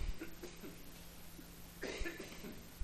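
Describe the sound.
A person gives a brief, faint cough over a low steady hum. A second short, sharp catch follows near the end. No talk is heard.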